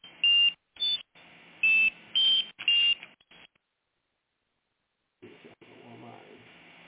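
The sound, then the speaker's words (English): Electronic alarm beeping because it needs recharging: five loud, shrill, high-pitched beeps in an uneven rhythm over a steady tone, then silence and a person talking. “alarm is going off. I need to charge it.”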